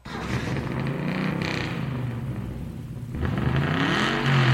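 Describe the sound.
A car engine revs in a continuous throaty roar with a whirring edge, growing louder in two steps toward the end, with no voices over it.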